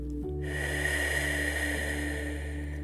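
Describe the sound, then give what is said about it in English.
A slow exhale during a guided breathing exercise: a steady, soft breathy hiss that holds evenly for the whole stretch, with a faint low hum beneath it. “Honoring the breath,”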